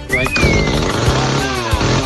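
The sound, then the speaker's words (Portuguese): A motorcycle engine failing to run properly gives a loud, rough, uneven rumble that sputters and labours without settling into a steady idle. “Não arrumou a moto ainda.”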